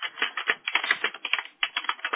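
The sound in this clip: Someone types a note on a computer keyboard: many quick, crisp keystrokes in an uneven, steady rhythm, with one short pause partway through, heard alone and slightly thin in tone.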